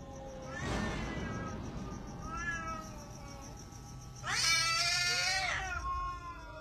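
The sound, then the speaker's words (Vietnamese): A cat yowls aggressively, as if wanting to fight, in drawn-out, wavering cries. Fainter howls come first, followed by a longer, much louder and harsher yowl. “Dường như là con mèo đang gào lên muốn đánh nhau vậy.”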